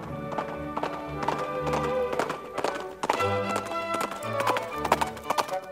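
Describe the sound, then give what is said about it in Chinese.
A horse gallops toward a mountain, its hooves clip-clopping in a quick, continuous rhythm over a steady musical backing, with a neigh-like note among the beats. “然后骑着马向山顶出发”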